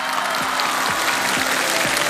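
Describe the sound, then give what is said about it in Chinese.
An audience applauds at an acrobatics show with dense, steady clapping that stays loud and even throughout. “谢谢掌声。”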